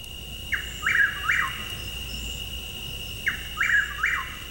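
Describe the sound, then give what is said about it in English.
A chuck-will's-widow calls twice, each a quick three-part whistled phrase repeated at a steady pitch. A constant thin high hum runs underneath. “And let's listen. Here's chuckwheel's widow.”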